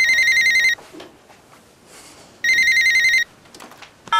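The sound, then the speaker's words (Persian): A telephone rings in two bright electronic bursts of trilling tones, separated by a pause filled with faint low noise, and a third burst begins at the very end. “ای بابا باز این تلفن کجاست؟”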